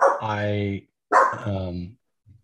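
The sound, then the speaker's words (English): A dog barks twice in loud, drawn-out, tonal barks separated by a short pause, followed by a faint brief sound at the very end. “I'm hearing dogs in my head right now. No, I heard it too. Oh, okay, good. That's my dog.”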